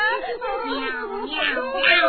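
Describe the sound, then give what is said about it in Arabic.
A cat meows in drawn-out, wavering cries that run almost continuously for about two seconds. The sound is fairly loud, with speech-like tones mixed in. The cat is one trying to stay in a family's home and eat their food. “لا يا صغار الحلوين، إنها قطة لطيفة وليست مزعجة.”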